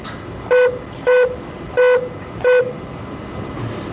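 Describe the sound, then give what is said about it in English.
Four short telephone keypad tones sound on an automated phone line as an extension is dialed. Each is a brief, steady, clear beep with short gaps between them, over a faint line hiss. “If you know your party's extension, you may dial 2 and the 4-digit extension.”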